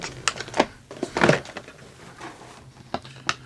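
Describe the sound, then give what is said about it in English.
Cardboard package being torn open by hand to unpack a kit of small parts: a few sharp crackling, ripping bursts separated by quieter rustling gaps, with no talk. “then I'm going to tear in. I hear you're tearing into your package as well.”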